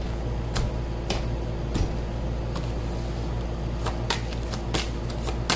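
Cards are shuffled and laid out as a deck is split into three piles: a series of sharp, papery slaps and riffles at irregular intervals over a steady low hum.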